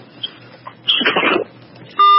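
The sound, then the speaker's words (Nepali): A short, loud electronic beep closes a telephone call that has just been disconnected, sounding after a muffled burst of line noise with a few faint blips before it. “Hello भन्दैथ्यो, उहाँको phone disconnect भएको छ।”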